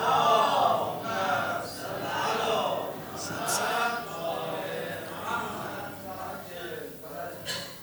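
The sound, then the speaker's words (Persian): An audience recites salawat together in unison, a sustained murmur of many voices chanting as one, rising and falling in loose waves throughout. “هدیه نثار آقا امیرالمومنین یه صلواتی خط بفرمایید تا عرض کنم.”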